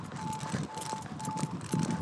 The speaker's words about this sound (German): Das Signal kommt. Piep, piep, piep. Zeichen, wir können rüber.